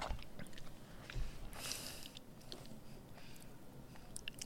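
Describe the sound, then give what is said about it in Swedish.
Someone chews an egg with soft, wet bites and squishy chewing. The mouth sounds come in an uneven run of small clicks and smacks, a little louder near the start, with no talking. “Nej, du ska äta ditt ägg.”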